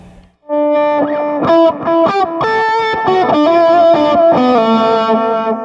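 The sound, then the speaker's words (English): Lead electric guitar plays a melodic line through a delay effect, with a driven, slightly distorted tone. After a brief quiet start, the sustained notes ring out loudly and overlap as repeating echoes trail each one. “So, more tame and control. So more traditional use of delay on a lead guitar sound.”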